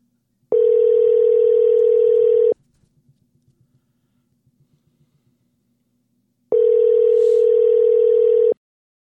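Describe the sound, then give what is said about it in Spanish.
A telephone call ringing out on the line: two long, steady, loud buzzing tones of about two seconds each, separated by a roughly four-second gap that holds only faint, soft clicks. “Deme un segundito, déjame ir marcando aquí.”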